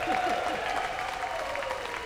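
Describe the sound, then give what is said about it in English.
Steady applause from an audience greeting a vocalist on stage, a dense, continuous patter of clapping that holds an even level throughout. “before we go any further, a round of applause for man of the world, Mr. Frank Sullivan”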